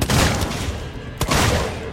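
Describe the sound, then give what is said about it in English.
A revolver fires in a video game: two loud, sharp blasts about a second apart, each followed by a rumbling, slowly fading tail. “I'm trying to use my revolver. You have to hold the button down and then shoot it.”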